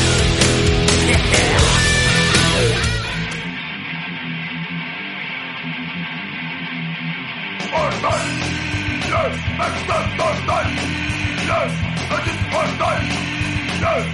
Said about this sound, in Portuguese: Toca a vinheta!